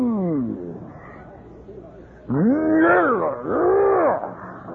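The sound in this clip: A man's voice imitates a lion's roar with two drawn-out, growling cries, each rising and then falling in pitch. They follow a stretch of lower talk.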